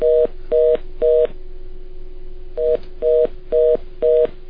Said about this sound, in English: Sorry, I had to get rid of that beep. I don't know where that was coming from.